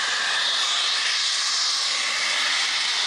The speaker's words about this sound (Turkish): metrelerce yükselirken yoğun ses nedeniyle ekipler kulaklarını kapatmak zorunda kaldı. Doğal gaz borusu delindi, gaz metrelerce havaya yükseldi.